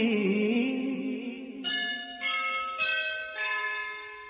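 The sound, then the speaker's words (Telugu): A school bell rings out the first bell of the day, struck about four times at fairly even intervals. Each bright, loud ringing tone hangs on and overlaps the next. “Elbow స్కూల్లో మొదటి గంటే మోగింది.”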